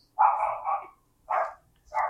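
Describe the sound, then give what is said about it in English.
A dog barks during an interview with two songwriters, giving a few short, sharp barks in separate bursts with brief silences between them. No one talks over the barking. “Watch that dog, y'all.”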